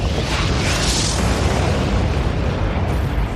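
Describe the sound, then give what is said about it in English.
A sound effect of fire sent down from heaven, as in the Elijah and prophets of Baal story, is a loud, dense roaring rumble that holds steady throughout with no breaks. “And then he says, all right, if God is God, then let him send down fire from heaven. And then this happens.”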